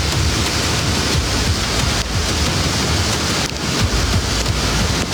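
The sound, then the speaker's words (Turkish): Heavy rain pours down in a city downpour that brought flooding. It makes a dense, unbroken roar of hiss that stays loud and steady throughout, with no voices. “Mega kenti yağmur vurdu, sağanak sel getirdi”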